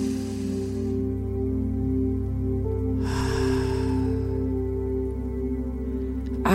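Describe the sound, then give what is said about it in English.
A deep breath drawn in during a guided affirmation exercise: a single long, airy inhale lasting over a second, heard over a steady, sustained low musical drone. “Take a deep breath in.”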